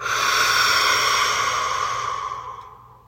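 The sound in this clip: Breath exhaled through the mouth during a morning breathing exercise, a long steady airy rush lasting about three seconds before it trails off and fades, with no talk over it.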